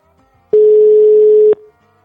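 A telephone line tone sounds while a call is placed: one loud, steady, pure tone lasting about a second, starting and stopping abruptly, alone with no talk.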